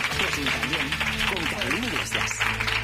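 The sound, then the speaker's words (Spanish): An audience applauds a guest beneath a prominent speaking voice, leaving a steady, moderate bed of clapping under the talk. “Un aplauso para María Teresa.”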